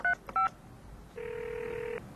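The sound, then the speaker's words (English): Touch-tone telephone dialing for a call: two short electronic keypad beeps in quick succession, then a long steady tone that holds for nearly a second before stopping. “Let's try calling her again”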